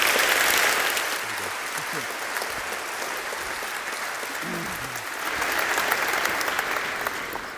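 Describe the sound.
Audience applause welcomes a speaker to the front at an Easter church service. The clapping is dense and steady throughout and swells slightly toward the end.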